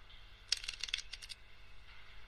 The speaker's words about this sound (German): Ihr hört auch im Hintergrund so ein Geräusch wie von einem Casino. Wir haben uns echt Mühe gegeben, da einigermaßen Atmosphäre zu generieren. Karten mischen.